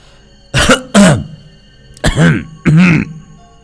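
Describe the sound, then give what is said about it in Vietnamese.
A man coughs four times, rough and voiced, in two quick pairs with a pause between them. The coughs are loud and raspy, close to throat clearing, and nothing else is heard. “Khẽ đặt con búp bê xuống bàn, kẻ nọ thở dài, ho khổ khổ lên vài tiếng.”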